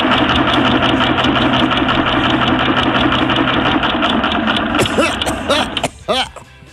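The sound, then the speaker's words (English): A machine billed as the Doppler 3000 random birthday picker whirs to life: a loud, continuous rattling mechanical drone with a busy, gear-like texture that grows more ragged and trails off toward the end. “Time to fire up the old Doppler 3000 random birthday picker machine.”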